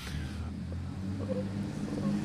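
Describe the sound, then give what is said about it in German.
A Porsche Cayenne SUV drives past on a street in Vienna, heard as a low, steady engine rumble with a faint higher whine. “wir sind wirklich in Wien, denn hier fährt gerade ein, was das, Porsche Cayenne an uns”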